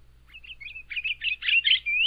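Song of a medium-sized, plump, heavy-chested songbird, the male mostly red, with two white wing bars and a stubby curved bill. It gives a high, warbling run of varied notes that grows louder and busier toward the end.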